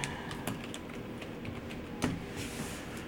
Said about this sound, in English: I'll just type in Eternals.